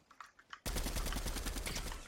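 Rapid automatic gunfire from a video game shooter: a few scattered pops, then a loud, dense, unbroken burst of quick shots that runs to the end, with no voices over it.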